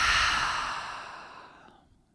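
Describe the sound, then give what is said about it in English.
A single long, breathy exhale, out through the mouth after a full breath, starts strong and fades smoothly to silence over about two seconds. “Let's take a full breath in through the nose, out through the mouth.”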